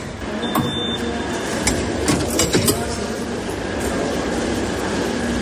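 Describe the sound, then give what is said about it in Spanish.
A Madrid Metro line 5 train runs from La Latina station toward Alameda de Osuna, a steady loud rumble of the moving carriage with a few sharp rail clacks in the first half. “Nos subimos ahora mismo a la línea 5 de metro, en la estación de La Latina, y vamos a ir dirección Alameda de Osuna.”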